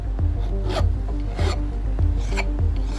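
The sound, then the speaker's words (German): A goldsmith files a ring at her workbench, with steady, rhythmic rasping strokes of the file and a low knock repeating at each stroke, moderately loud and with no voices. “Goldschmiedin Caro, die Inhaberin von Goldzauber, sitzt an ihrer Werkbank und feilt an einem Ring.”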